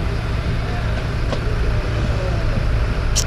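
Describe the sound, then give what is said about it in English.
Buses driving past with noisy, rumbling engines, a steady loud low drone with some mid-range motor noise that continues unbroken throughout. “And sorry, other buses farting away.”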